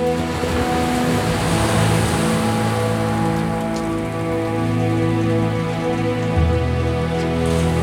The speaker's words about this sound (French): Même les sommets des montagnes disparaissent, engloutis par les eaux. Poussée par le vent, l'arche flotte au gré des vagues.